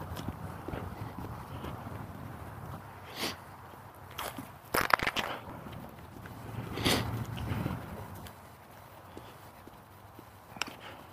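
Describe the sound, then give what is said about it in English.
Footsteps shuffling and walking on ice, faint irregular crunching and scraping steps with no voices. “But I'm getting a workout walking, shuffling on ice here.”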